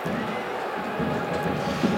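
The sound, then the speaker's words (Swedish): A home crowd at a women's football match in Vittsjö stands and applauds in stoppage time, a steady, moderately loud wash of clapping and cheering voices. “Hemmapubliken har ställt sig upp och applåderar.”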